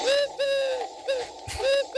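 A blackbird calls outside a window in four clear, tonal, harmonic notes, each about a quarter second long, separated by short gaps. A brief soft click falls between the third and fourth calls.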